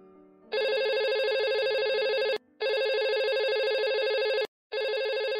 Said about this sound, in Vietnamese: Điện thoại liên tục reo vang từ sáng tới giờ